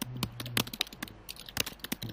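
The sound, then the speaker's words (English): Furious typing on a computer keyboard: quick, irregular bursts of light key clicks and clacks, fairly faint, with no voices. “Furious typing.”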